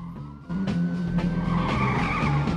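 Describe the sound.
Tires skid as a car swerves, a loud, sustained squealing hiss over a low engine rumble. It swells after the first half second and stays strong to the end, with a thin whine drifting across it.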